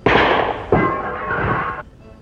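Shots ring out from a clown's cap pistol loaded with a real bullet at a circus. Two loud, sharp bangs each leave a harsh, lingering ring that fades out before the end.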